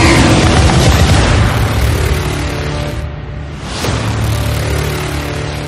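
Star Trek weapons fire and explosions blend into a loud, continuous, heavy roaring rumble that thins briefly in the middle before swelling again.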